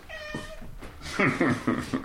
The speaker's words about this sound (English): His faithful companion lounges on the bunk in the corner. That's the cat.